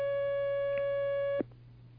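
Telephone line tone of an incoming call: one steady electronic tone that holds for well over a second, then cuts off abruptly and leaves faint line hiss.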